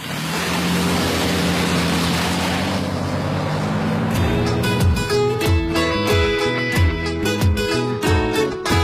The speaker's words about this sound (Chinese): 上车了啊，走了，